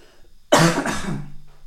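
A single harsh cough: a sharp, loud burst, then a rougher second push that trails off into a breathy tail in otherwise quiet surroundings.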